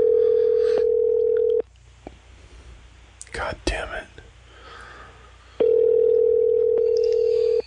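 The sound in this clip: Ringback tone of an outgoing phone call that goes unanswered: two bursts of a steady, even tone separated by a long silent gap, with faint whispering and rustling in between.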